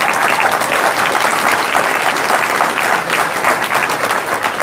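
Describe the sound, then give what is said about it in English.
An audience at an evening meeting applauds a board, the clapping dense, loud and steady for the whole stretch with no break and no voices standing out. “Big round of applause for the CSU board over here.”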